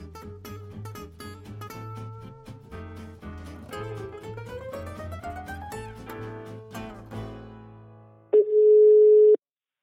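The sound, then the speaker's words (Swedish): A steady, loud telephone ringback tone on a mobile phone call placed from an iPhone, sounding as one sustained note for about a second after a stretch of music. “ett vanligt iPhone-ljud”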